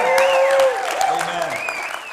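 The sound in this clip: A church audience applauds to welcome online viewers in a short, steady burst of clapping that runs under a man speaking.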